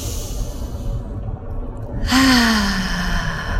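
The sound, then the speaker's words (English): A group takes a deep breath together during a gratitude meditation: a long, soft inhale of airy noise, then a fuller exhale released as a voiced sigh that drifts slightly downward in pitch. “So taking that deep breath. Once more.”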